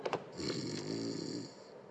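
Loud snoring from a man asleep on a sofa: a couple of short snorts, then one long, rasping, drawn-out snore.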